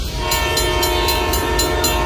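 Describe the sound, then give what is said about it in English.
A passing Ontario Northland passenger train gives a steady, loud rumble with sustained horn-like tones and a regular clacking rhythm of wheels over the rails. “Ontario Northland reminds residents that the Northlander passenger train will soon be operating in our region.”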